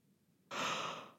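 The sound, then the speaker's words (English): A single yawn, a breathy airy exhalation that starts abruptly after a short quiet stretch and holds steady for under a second, soft and faint, with no talk. “sorry, podcast yawn”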